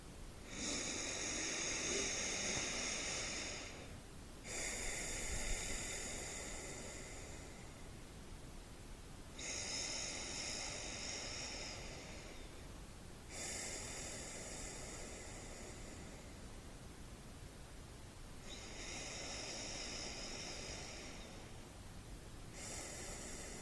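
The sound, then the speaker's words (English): Slow, deep human breaths, each drawn out over several seconds, with soft, airy rushes of air separated by brief pauses at a quiet, even level. “Let's take 3 deep breaths to really feel and appreciate the capability of your lungs.”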